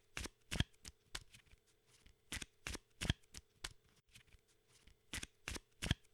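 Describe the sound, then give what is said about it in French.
A deck of playing cards being shuffled: many quick crackling riffle bursts in an uneven rhythm, fairly faint, with no voices. “Puis, vous allez pouvoir mélanger ce paquet. Mélangez un petit peu ce paquet.”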